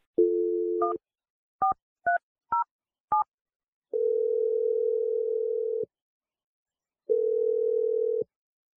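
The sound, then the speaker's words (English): A telephone dials a number: a brief tone, then a few quick keypad beeps at an uneven rhythm, followed by two long, steady ringing tones separated by silence. “I'm going to dial Kristen's number. We'll see if she answers and what she has to say.”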